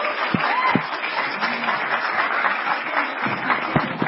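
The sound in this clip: Audience applause welcoming a speaker to an economics lecture: a dense, steady wash of many hands clapping that holds at an even loudness for the full four seconds.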